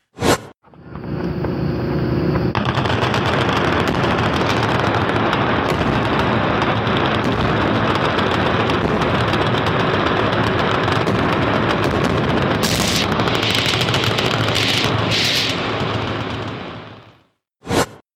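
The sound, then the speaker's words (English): Gunfire and explosives at a gun range in Kentucky: a single sharp blast, then a loud, dense barrage of rapid shots and detonations lasting about fifteen seconds, ending in another lone blast. “That looks to me like gunfire at explosives of some sort. Almost as if it was done for some sort of, I don't know, gun show or something in Kentucky.”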